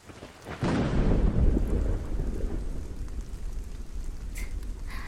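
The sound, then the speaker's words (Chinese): Thunder in a rainstorm: after a quiet opening a deep rumble surges in, then rolls on and slowly eases beneath a steady hiss of rain. “因为雷声没听见吗？”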